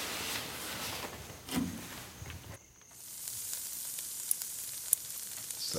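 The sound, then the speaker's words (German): Soup simmering in a pot on the stove gives a steady hiss and sizzle. It dips briefly partway through, then continues with a few faint clicks. “Ah, und da köchelt die Suppe.”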